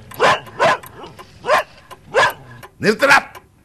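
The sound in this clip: A dog barks repeatedly at dusk, giving several loud, sharp barks in an uneven rhythm, with the last two coming close together.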